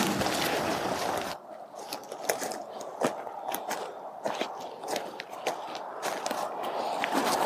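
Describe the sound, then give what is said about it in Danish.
Footsteps walking uphill toward a burial mound: many crunching steps in a steady, even rhythm that continue throughout. “Så det er også der, vi går op nu. Så ja, der kommer lidt mere forpustethed.”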